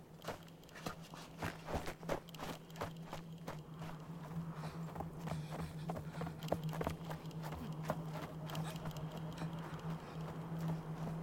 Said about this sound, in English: She drops her axe and runs.